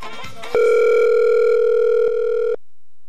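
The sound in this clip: A telephone dial tone sounds after a dropped call as one steady, unbroken electronic hum of about two seconds. A brief garbled sound comes just before it.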